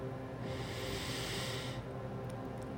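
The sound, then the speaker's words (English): A single deep breath in: a soft, airy hiss that rises quickly, holds for just over a second, then stops. It is faint and heard alone. “Take a deep breath in”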